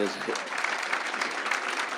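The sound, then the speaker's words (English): Audience applause at a union gathering: steady, dense clapping that holds at an even level from start to end, with a few voices mixed in. “So let's give it up for Tom DiNapoli.”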